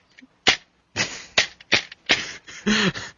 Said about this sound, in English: Give up? Yes. It's a player VHS tape.